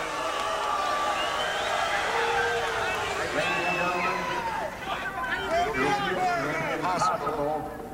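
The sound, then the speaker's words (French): Tennis crowd in uproar at a chaotic match, a dense, sustained clamour of many shouting and jeering voices that barely dips over the whole stretch. “It will be impossible to continue the match unless you quiet down and the roar double.”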